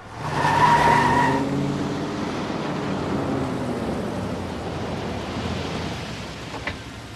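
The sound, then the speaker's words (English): A car pulls away with a loud engine roar and a brief high tire squeal near the start. This gives way to a sustained rushing engine noise that slowly tapers off. “The younger boy makes a rude gesture and the car pulls away.”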